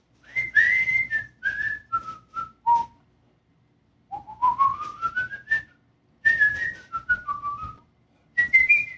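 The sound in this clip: A man whistles a tune in four clear melodic phrases separated by short pauses, with notes sliding between pitches and one steadily climbing run in the middle, alone without talk.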